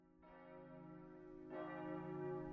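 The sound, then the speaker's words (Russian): Chapel bells ring out in a town. Two faint, deep strikes sound a little over a second apart, and each one swells into a rich, humming tone that keeps ringing on its own. “В городе зазвенели колокола часовни, созывая верующих на молебен.”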